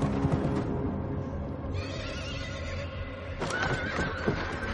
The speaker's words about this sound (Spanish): Un caballo sin montura corre hacia la fortaleza.